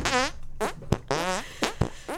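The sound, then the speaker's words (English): Hand-fart noises made by squeezing air through cupped hands: a string of short, faint, buzzy raspberry blasts with sharp pops between them, in a broken, uneven rhythm. “This is my victory hand fart”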